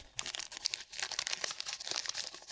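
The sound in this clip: Crinkly plastic wrapper of a trading card pack that also holds gum is torn open, producing a continuous run of crisp crackles, crunches and rustles at a fairly quiet level.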